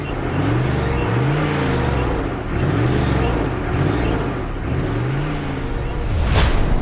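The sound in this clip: The lead vehicle accelerates uphill, its engine rising in pitch in several repeated surges over a steady, loud roar. A brief, sharp burst of noise comes near the end.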